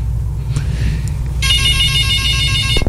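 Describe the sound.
A telephone rings for an incoming call, an electronic ringtone of steady, bright high tones that starts midway and stops abruptly, over a constant low rumbling bed.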